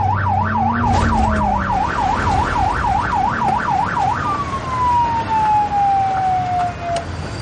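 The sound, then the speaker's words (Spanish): A police car siren wails in quick, regular rising-and-falling cycles as the car sets off in pursuit, then switches to a single long tone that slowly drops in pitch. Loud and continuous, with a low vehicle rumble underneath. “El detective coloca la sirena y arranca persiguiéndolo.”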